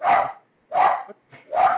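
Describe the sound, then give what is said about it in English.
A pit bull dog barks three times, loud, short and mid-pitched, with even pauses between the barks and no voices over them. “Oh, that's your dog. I was like, what the fuck is that? My bad. That's my attack pit bull, yeah.”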